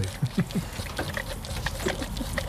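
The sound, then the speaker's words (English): Wet sucking and slurping of two very hungry baby goats drinking from a bottle at feeding time. A few louder gulping sucks come early, then softer, steady suckling with no voices. “It's the sound of two very hungry baby goats at feeding time.”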